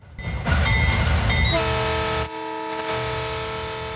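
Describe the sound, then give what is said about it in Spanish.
A train horn sounds a start signal for the Tren Maya railway in Mexico: a loud, sustained chord-like blast that shifts pitch partway, then continues at a lower, steadier level. “En este momento se percibe la señal de arranque de esta gran y emblemática obra, el Tren Maya.”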